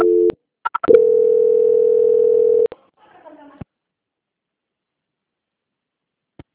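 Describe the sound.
Telephone line tones during a call transfer while on hold: a few short beeps, then a steady continuous tone for about two seconds that cuts off, followed by faint scratchy noise, a click and near silence.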